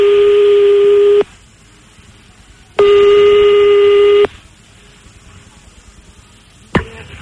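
Telephone ringing tone heard on an outgoing call: two long, steady, buzzy beeps of equal pitch, each lasting over a second and separated by a pause, followed by a sharp click at the end.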